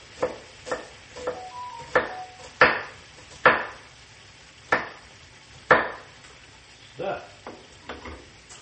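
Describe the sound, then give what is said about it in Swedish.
Knife chopping onion on a cutting board while cooking over high heat: a steady series of sharp, loud chops at an uneven, unhurried pace, each a crisp knock that quickly fades. “Jag har lite lök kvar att skära här.”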